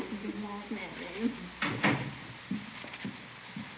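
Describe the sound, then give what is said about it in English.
A house door opens or closes as a guest leaves at night: a voice speaks briefly, then a few wooden clunks and clicks follow, fairly faint. “I'll show you to the door, ma'am.”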